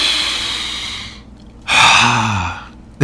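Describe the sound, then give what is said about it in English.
A deep breath drawn in and let out: a long, airy, hissing inhale, a short pause, then a louder exhale with a voiced, sighing tone. Another breath begins abruptly at the very end. “Taking a breath.”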